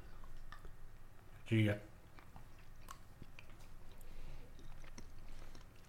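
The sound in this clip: Chewing a dark chocolate truffle with a boozy liquid center: one loud, short bite-like burst early on, then soft, steady mouth sounds over a constant background hiss.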